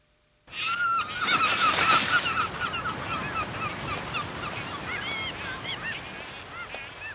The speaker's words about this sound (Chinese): 哇，好多海鸥啊！